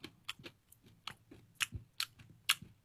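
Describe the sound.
Crunchy candy being chewed, a run of many crisp, sharp crunches at an uneven pace, each a brief bright crackle, with no talking.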